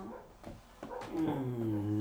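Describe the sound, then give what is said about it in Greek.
A dog vocalizes after someone has left. A few short, sharp yips give way to a longer, wavering, high-pitched whine, fairly faint overall. “Έφυγε κάποιος τώρα, γι' αυτό γαυγίζει.”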